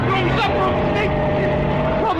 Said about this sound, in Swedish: Lägg i backen och trampa på gasen innan det blir folksamling. Nå, trampa på gasen nu så vi kommer härifrån.